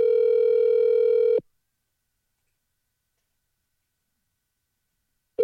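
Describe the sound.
A steady, loud telephone tone plays during a phone call, cuts off abruptly, leaves a long silence, then returns briefly at the very end.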